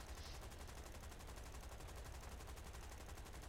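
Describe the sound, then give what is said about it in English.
Video game shootout gunfire: rapid automatic shots, evenly spaced and repeating without pause for the whole stretch. The sound is faint and steady, with no voices. “I think someone might be shooting me, though. I've peppered him with quite a few shots, but this bugger... He's not going down.”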